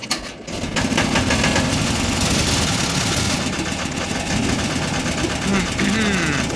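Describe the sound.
An engine starts after a brief gap and settles into a loud, steady idle, a thick continuous rumble with a slightly rough, knocking texture.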